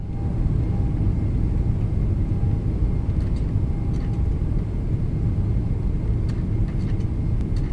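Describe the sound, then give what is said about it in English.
Deep, steady engine rumble from spacecraft engines throttling up for launch, loud and continuous throughout, with a dense low roar and a few faint higher crackles near the end. “Tighten those seatbelts, guys. One more time. Going to throttle up.”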